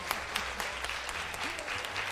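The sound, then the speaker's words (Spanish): Scattered hand claps from a studio audience applauding two competing teams on a radio quiz segment. The individual claps are fairly quiet and come in a loose, irregular run rather than a dense roar. “Pero les aplaudimos, chicos. Les aplaudimos a los dos equipos.”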